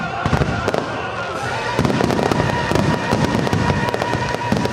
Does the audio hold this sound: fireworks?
yes